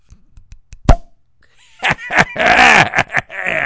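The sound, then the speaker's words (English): A single sharp pop as the cork comes out of a caged beer bottle, with a brief ringing tail, then voices and excited vocal sounds follow. “All right. Got the cage off. Now I'm going to get the cork. Here we go to cork. Ready?”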